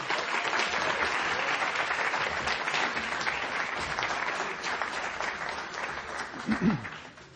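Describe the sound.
An audience applauds to welcome a guest speaker to the stage with sustained, dense clapping from many hands. It thins and fades toward the end, where a voice briefly cuts in.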